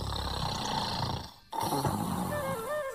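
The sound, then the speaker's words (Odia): Loud, rough snoring from a man sleeping in the shade of a banyan tree after carrying a heavy load. A dense rasping rumble breaks off briefly midway, then resumes just as strongly. “ନିଦରେ ଶୋଇ ସେ ଖୁଙ୍ଗୁଡ଼ି ଛାଡ଼ିବାକୁ ଲାଗିଲା।”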